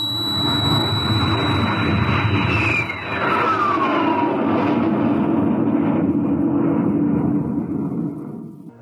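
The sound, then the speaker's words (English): A rocket blasts off at launch with a loud, steady roar that holds throughout. A whistling tone sweeps downward partway through, and the roar cuts off abruptly at the end. “Countdown for blast off. X minus 5, minus 4, minus 3, minus 2, X minus 1. Fire.”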